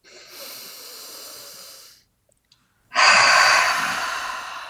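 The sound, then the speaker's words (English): A deep breath during a guided tapping exercise: a long, airy inhale, a short silent pause, then a louder, breathy exhale that runs to the end. “Deep breath.”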